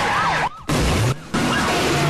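Police car sirens wail during a high-speed chase onto a slip road, their rising and falling tones riding over loud roaring road noise, broken twice by brief drops in sound.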